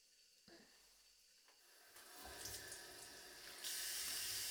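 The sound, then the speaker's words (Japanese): Water runs from a faucet into a sink while hands and wrists are rinsed. It starts as a faint trickle, then swells into a steady hissing stream that grows louder toward the end, with no talk. “流し残しがないように。”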